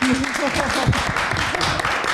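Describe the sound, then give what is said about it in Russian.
Audience applause fills the stretch as steady, dense clapping, with a voice speaking over it. “Передаю ваши аплодисменты Ульфу Старку”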